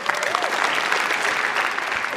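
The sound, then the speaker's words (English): Audience applause for a person who has just asked a question, a dense, steady wash of many hands clapping that stays fairly even in loudness for its whole short length. “Not 100% sure he deserves applause, but sure.”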